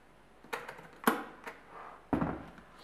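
A cooker lid being closed and its start button pressed: several faint, short clicks and knocks spread across a quiet background, with the strongest near the middle and toward the end.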